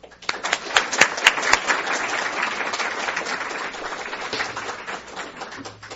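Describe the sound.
Audience applause welcoming a professor to the lectern before her lecture on British colonial violence; about six seconds of dense, sustained clapping, sharpest at the start and thinning slightly toward the end.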